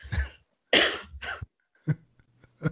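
A person coughs in a few separate bursts: a first cough, then a louder double cough, followed by two softer, throat-clearing coughs with short pauses between them.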